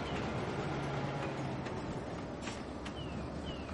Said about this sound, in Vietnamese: nghe tiếng phành phạch không ngừng của tàu lửa. Thi thoảng còi tàu hú lên từng hồi trong sương chiều não nị